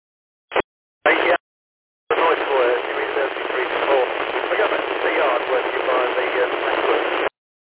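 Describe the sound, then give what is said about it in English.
Radio static hisses, with a weak mobile-station transmission buried in it. Two short bursts are followed by a long, steady wash of thin, band-limited noise, and faint traces of a voice are barely discernible beneath it. “You're there, but you're very weak, over. You're very weak. You're in the noise, over.”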